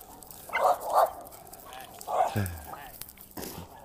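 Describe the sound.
A dog barks during a walk in a park, giving a few short, sharp barks spaced apart over low outdoor background noise.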